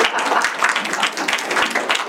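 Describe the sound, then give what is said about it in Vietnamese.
An audience at a funeral gathering claps for the men, a steady patter of many hands at moderate loudness throughout, without any clear peaks. “Đúng cái thể, vỗ tay cho mấy ông.”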